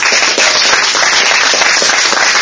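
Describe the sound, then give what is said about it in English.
Clapping from an audience at an AA meeting: thick, continuous applause of many hands, loud and even from start to finish, with no voices on top. “I hope you're all clapping for yourselves, because I could never have done it without AA.”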